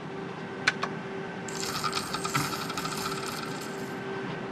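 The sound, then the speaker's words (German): A casino slot machine cashing out credit after the cash-out button is pressed: a couple of sharp clicks, then a continuous quick metallic rattling and whirring that runs on to the end. “Jetzt möchte ich mich gerne noch mal ein bisschen umschauen im Rest des Automaten-Casinos. Das heißt, ich nehme jetzt meinen Kredit mit. Dafür drücke ich auf Auszahlen.”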